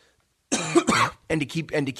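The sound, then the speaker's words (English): Coughing from a person with a cold: short, harsh bursts followed by further rough vocal sounds. “pardon me if I cough a little bit, like I said, a little bit of a cold today.”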